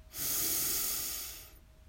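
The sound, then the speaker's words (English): A person breathes, one long airy rush of breath that swells quickly, holds steady for over a second and then fades, with no talking. “Breathe in and out.”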